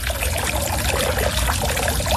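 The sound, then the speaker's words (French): Small water jets from garden fountains decorated with shells and flowers in a formal French-style garden, giving a steady, unbroken splashing trickle at an even level throughout, with no voices. “il y a quatre fontaines décoré de coques, de fleurs, et il y a des petits jets d'eau.”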